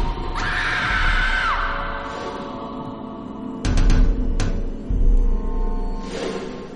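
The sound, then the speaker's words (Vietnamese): A girl's terrified scream in a horror story: a loud, high, wavering shriek that trails off, followed later by a few sharp bangs. “Trúc hét lên kinh hoàng, tiếng hét như xé toạc màn đêm”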